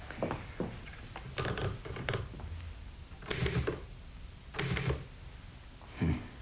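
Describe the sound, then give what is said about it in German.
Typewriter keys clacking in a few irregular clusters of quick mechanical strikes, separated by short pauses. Faint, with no voices. “Die Schreibmaschine.”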